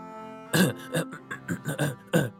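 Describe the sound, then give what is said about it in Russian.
A man clears his throat in a series of short, rough, guttural bursts, about six or seven in quick irregular succession, over a faint steady hum. “Когда я прочистил горло”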